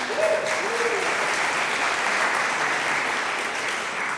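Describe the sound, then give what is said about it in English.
Applause from an audience at a church gathering, a dense, even patter of many hands clapping steadily and fairly loud throughout, with no voices over it. “those applause are for you, hon”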